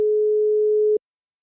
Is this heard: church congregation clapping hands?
no